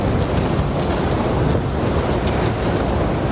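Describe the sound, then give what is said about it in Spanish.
Strong wind sweeps a snowy ski slope in fog, a dense, steady roaring rush with no pauses and no voices. “La nieve está muy bien. Pero hay viento y niebla.”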